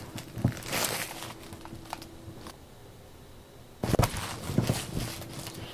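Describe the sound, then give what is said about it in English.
A chip bag's wrapper crinkles as the bag is opened. Bursts of crackly rustling drop to a quiet lull in the middle, then come back as a second round of crinkling. “Someone's opening the chips. Oh, let's unwrap that.”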